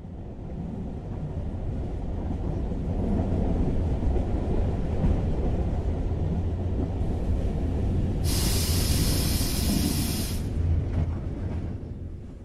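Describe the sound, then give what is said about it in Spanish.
Train braking as it arrives at a stop, a continuous low rumble and rattle of the rail cars. Partway through, a loud, high hiss bursts in over the rumble, holds for a couple of seconds, then cuts off abruptly. “El tren frena y llegamos a la segunda parada.”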